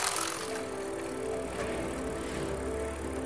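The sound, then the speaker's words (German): A bicycle is ridden downhill on a bright day, giving a faint, steady rolling whir with a light rattle that holds an even level throughout. “Ich fahre auf dem Fahrrad und der Tag ist hell.”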